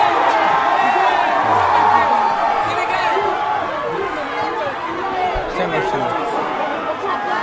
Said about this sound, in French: Voilà, comme vous voyez, donc, on supporte. C'est l'Afrique hein, qui joue. Donc. Quand c'est l'Algérie, on a crié.